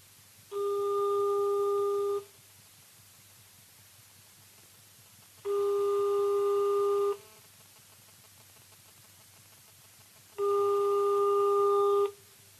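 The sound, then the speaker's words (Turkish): Telephone ringback tone as a call rings through: three long, steady electronic buzzing tones, each under two seconds, separated by even pauses of silence. “O zaman arıyorum adamı Görelim bakalım”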